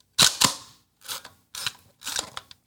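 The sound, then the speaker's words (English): Mechanical snaps and clicks of a medium format camera being wound, mirror locked up and shutter fired: a loud, sharp pair of snaps, then a few softer ratcheting bursts separated by short quiet gaps. “there goes up the viewfinder, and then you wind it up, and then you put the mirror up, and then that pop just sounds.”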